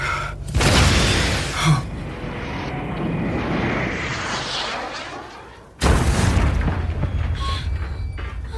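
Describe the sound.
Explosion of a tank struck by a shoulder-fired weapon: a loud, deep blast with rolling rumble that slowly fades, then a second sharp, heavy burst of roaring noise.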